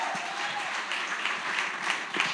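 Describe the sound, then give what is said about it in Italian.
Audience applause fills a church service, a dense, steady wash of many hands clapping together, holding an even loudness from start to finish. “Quindi voglio chiamare sul palco Lorenzo, facciamo un grande applauso.”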